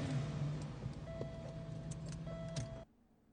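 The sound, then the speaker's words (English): Car pulling into a parking spot and rolling over a low cement divider: a steady engine hum with a few short knocks and scrapes, then an abrupt cut to near silence. “they were pulling into a parking... spot, and then it's just like the little cement divider, and they just completely rolled over it”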